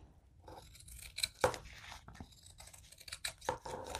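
Scissors cut paper for a handmade journal in a beginner DIY project. A few crisp snips and papery rustles come in irregular bursts, with one sharper cut standing out and no talking.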